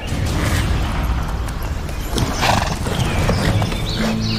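Horses clip-clop steadily during a horseback hunt, a neigh rising over the hoof beats, all set against continuous outdoor background noise with no talk.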